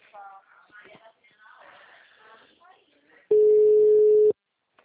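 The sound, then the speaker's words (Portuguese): A telephone busy signal: a single steady tone lasting about one second, coming right after a stretch of people talking. “Vamos tentar ligar para ela de novo. Igual você falou, ela não visualizou, né? O número está ocupado.”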